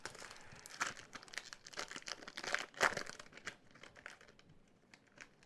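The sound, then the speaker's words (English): Foil wrapping of a collector booster pack of trading cards crinkles as it is opened, with many quick, bright rustling and crumpling bursts at a fairly faint level and no speech. “All right, I'm going to open two more collector boosters, and then we'll shift to some of the other types of boosters.”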